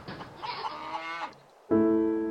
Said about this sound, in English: Bleating goats, squawking chickens, mooing cows, not to mention the vicious wind whipping outside.